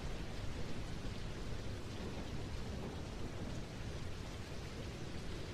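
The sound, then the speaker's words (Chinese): Rain falls steadily in a dense, even hiss with a low rumble of thunder running beneath it, faint and continuous with no pauses or voices. “是的，下雨了，雨滴打在身上，舒服吗？”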